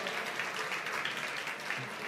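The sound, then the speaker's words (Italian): Audience applause greets a guest economist at an Italian economics talk: dense, steady clapping that holds at an even level for the whole two seconds, with no spoken words. “Fate un applauso a Polillo De Aglio, per favore, grazie.”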